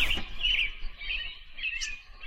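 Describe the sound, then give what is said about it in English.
Soft, high chirping of three baby birds in a nest, with a few short tweets and trills recurring in quick succession over a quiet background. “She listened to the babble of the three birds.”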